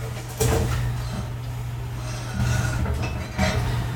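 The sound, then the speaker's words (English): A jar of coconut oil is grabbed in a kitchen amid glassy clinks, light knocks and rattles of dishes, heard over a steady low hum. “I'm gonna grab the coconut oil.”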